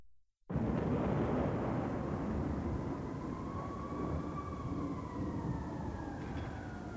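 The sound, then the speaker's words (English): Rain hissing steadily on a stormy city night, with faint police sirens wailing through the downpour. “Stormy night in the city. Rain, police sirens.”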